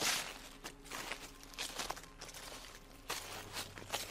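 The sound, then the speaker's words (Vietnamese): Footsteps rustle through dry leaves in a garden just outside a bedroom: a series of soft, irregular crunching steps with scattered crackles between them, fairly quiet throughout. “Đầu tiên là tiếng bước chân đi dẫm lên lá khô ở bên khu vườn ngay bên ngoài phòng ngủ của tôi.”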